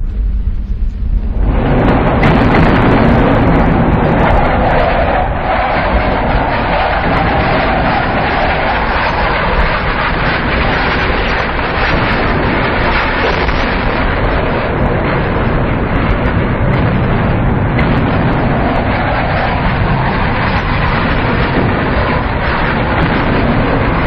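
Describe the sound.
A harsh power electronics noise track depicting an airplane bombing run: a dense, loud, continuous roar with rumbling lows and a gritty hiss rises sharply after the first second or two and holds steady, with no talk.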